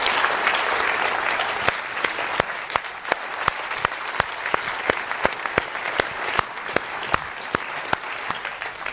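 Warm applause welcoming filmmaker Jacques Audiard, a dense, steady patter of many hands clapping that holds at an even level for about nine seconds, with sharper individual claps popping out of the wash.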